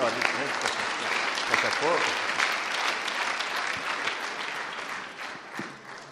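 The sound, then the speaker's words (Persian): Audience applause fills the space in a dense, steady wash of clapping, fading slightly toward the end, with some voices mixed in. “صحبت ندارم، این که عزیزان رو خودتون رو تشویق کنید و همینطور آقای دهخانپور”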